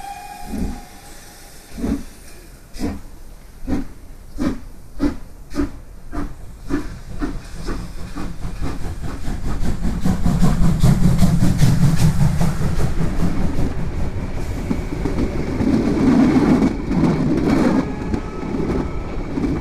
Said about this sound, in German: Und um 8:45 Uhr setzte sich der Zug in Bewegung.